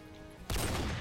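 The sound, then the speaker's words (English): A shotgun fired in a video game: a single sudden, loud blast with a dense, sustained tail that follows a faint background hum. “He just shot a shotgun at absolutely nothing.”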